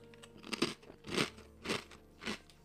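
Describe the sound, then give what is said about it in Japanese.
Crunchy garlic-butter beef-steak-flavoured snack is bitten and chewed in four evenly spaced, crisp crunches, moderately loud with a short crackle on each bite. “ニンニクバターの牛ステーキ味というやつをいただきます。”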